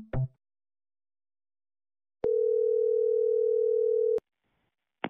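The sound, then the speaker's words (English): An answering machine gives a single steady electronic beep after a voicemail greeting. The pure, mid-pitched tone holds for about two seconds, with brief clicks before and after and silence around it. “The person you have dialed can't take your call now. At the tone,”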